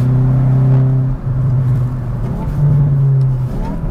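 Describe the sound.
Engine of a car in N mode accelerating hard: a deep, sustained roar with a steady low drone, briefly dipping once before pulling strongly again to the end.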